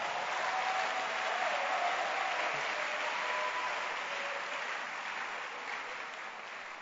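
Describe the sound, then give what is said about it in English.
Applause from a conference audience, a steady, moderately quiet patter of many hands that carries on evenly and tapers slightly toward the end. “Clap your hands for the beautiful job.”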